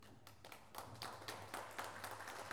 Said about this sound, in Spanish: Ahí están fuertes los aplausos.